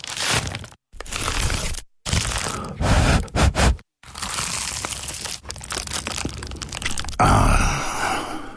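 Crunching bites into a baked, award-winning pie give loud, crisp crackles and crunches, broken by a few brief silent gaps, with no talk.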